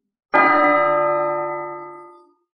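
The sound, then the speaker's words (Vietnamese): A bell rings once on a Buddhist holy mountain, a bright metallic strike full of layered overtones that hangs and slowly fades over about two seconds before stopping. “Tiếng chuông vang vang”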